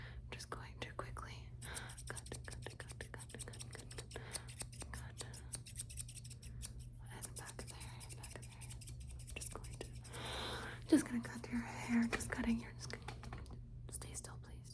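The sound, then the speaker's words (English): Scissors cut hair with many quick, crisp snips, soft and close, under gentle whispering in a fast-paced ASMR trigger session. “The next trigger I'm just going to quickly cut your hair.”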